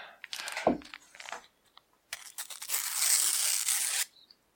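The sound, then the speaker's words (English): A sticker packet being torn open: a couple of short ripping bursts, then a longer, sustained tearing rasp that stops abruptly, heard alone. “Sounded good. A good tear. I'm back on form with tears now. I had a bit of a... He's on a tear. I had a shaky couple of days of tearing.”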